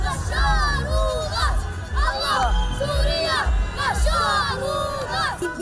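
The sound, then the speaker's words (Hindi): Children in a crowd in Aleppo, Syria, shout slogans and cheer as rebel fighters pull back, their high voices rising in repeated, chant-like bursts over a busy background of crowd noise. “विद्रोही लड़ाकों को पीछे हटते देख ये बच्चे भी नारे लगाते और खुशियां मनाते नजर आए।”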